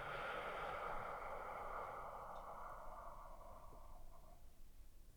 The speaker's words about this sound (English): Slow breath in. and a slow breath out.